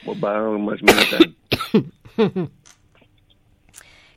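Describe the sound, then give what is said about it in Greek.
A person coughs after swallowing the wrong way. A brief stretch of voice comes first, then a few short, harsh coughing bursts, and the sound fades to near quiet. “Συγγνώμη, αλλά στραβώ κατάπια.”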